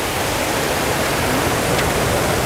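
A river flowing: a dense, even rush of water that holds steady throughout without pauses or distinct events.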